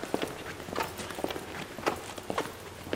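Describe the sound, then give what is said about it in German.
Footsteps walk across a roof as a steady series of faint, irregular taps and scuffs, with no other sound standing out. “dann machen wir mal einen Rundgang auf dem Dach.”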